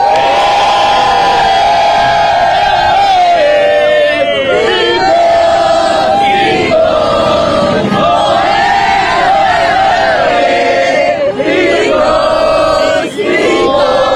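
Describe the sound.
A crowd of Costa Ricans cheers and chants loudly, with massed voices, shouts and whoops rising and falling in a continuous, boisterous wave.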